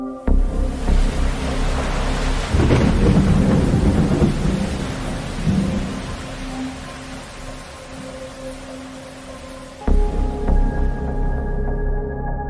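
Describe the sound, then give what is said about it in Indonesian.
Heavy rain pouring at night, a constant hissing roar joined by deep rumbling thunder that swells and fades, then a sudden louder burst near the end. “Dan malam itu turun hujan sangat deras.”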